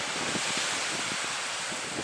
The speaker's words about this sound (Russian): Вы видите, друзья, какая чистая водичка здесь. При том, при всем, что волна и песочек